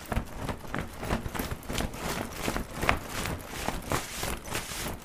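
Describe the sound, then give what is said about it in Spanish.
Horse hooves clip-clopping in a steady, even rhythm, with many quick hoofbeats repeating throughout and no talk over them. “El caballito de 7 colores le dijo, «Alexei, súbete a mi lomo». Entonces, el caballito abrió sus alas y se elevó al cielo.”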